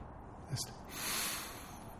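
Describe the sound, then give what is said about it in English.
A deep breath is drawn in, quiet and alone. A short sniff-like snort comes first, then a soft, airy inhale that swells and fades. “thanking God for the gift of life by taking in the breath of life. Let's do that now.”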